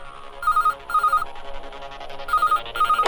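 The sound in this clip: A telephone rings for an incoming call-in caller: two loud double rings, each a pair of short electronic trills with a pause between the pairs.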